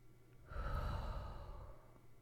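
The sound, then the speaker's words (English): A deep inhalation: one long, airy breath drawn in for about a second and a half after a brief pause, soft and unhurried, with no talk. “Let's breathe. Let's breathe in and”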